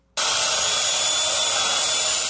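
A chainsaw carves a block of ice for seasonal ice art: a loud, steady, high-pitched motor whine that starts abruptly after a brief silence and holds without pause, with no voices.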